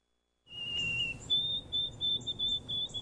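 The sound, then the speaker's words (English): White-throated sparrow song: clear, pure whistled notes. A long lower whistle is followed by a higher series of steady whistles repeated several times, heard alone over a faint low rumble. “Wondering what's singing in your backyard? That's the song of the white-throated sparrow.”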